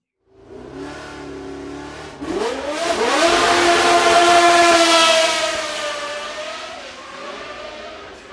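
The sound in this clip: A 1978 Lotus racing car with a three-litre Cosworth engine revs loudly. A steady low engine tone jumps sharply upward in pitch after about two seconds, holds a strong, high, sustained scream, then eases slightly toward the end.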